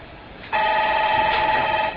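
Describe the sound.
A telephone rings with a steady electronic tone, a bright buzzy ring that starts abruptly and holds for about a second and a half over faint background hiss.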